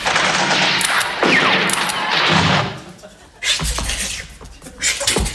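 Gunfire from soldiers advancing in close ranks and firing at will on command, loud dense bursts of overlapping shots that break off in a short lull before resuming in more scattered cracks.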